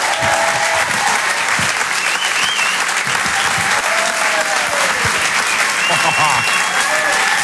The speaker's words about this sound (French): Je vous demande un maximum de bruit, s'il vous plaît, pour Jérémy Crénoville.